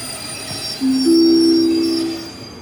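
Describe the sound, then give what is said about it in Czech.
Train wheels squeal as a train pulls into Kutná Hora main railway station: a steady tonal whine cuts in over a low rolling rumble, holds for about a second and a half, then fades. “Stanice Kutná hora, hlavní nádraží.”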